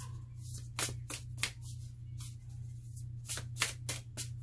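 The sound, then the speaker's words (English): Cards shuffled and pulled from a deck, many crisp papery flicks and riffles in two clusters separated by a brief lull, soft and without talk. “I'm gonna pull a few more cards. Cards to tell us more of the information we need.”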